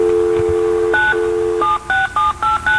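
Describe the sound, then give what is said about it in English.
An old telephone gives a steady dial tone, then a single touch-tone key beep. The dial tone returns briefly before five quick two-tone dialing beeps follow in an even rhythm. “that's the sound of a phone back in the old days, back in the last century.”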